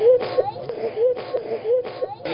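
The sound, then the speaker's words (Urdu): A child crying in repeated whimpering wails, each phrase a wavering, tonal sob broken by breathy catches, fairly loud and steady in rhythm. “پاپا یہ رو رہے ہیں. جو روتا اس کا کام نہیں ہوتا.”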